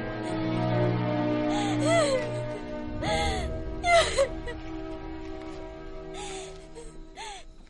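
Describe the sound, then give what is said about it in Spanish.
A woman sobs and wails inconsolably in a war drama, with repeated rising and falling cries and gasping breaths. The cries come in several bursts over a steady background. “Han llora desconsolada.”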